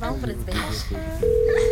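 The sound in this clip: A phone rings out while a caller waits for an answer: a steady, sustained electronic tone sets in after a man speaks and holds through the rest.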